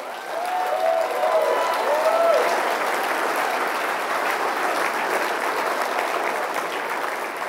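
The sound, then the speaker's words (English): An audience applauds, a dense, steady wash of many hands clapping that holds at an even loudness throughout and tapers only slightly toward the end. “Okay, that's enough applause for Jason.”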